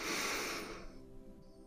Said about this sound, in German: und lasse den Atem langsam ausströmen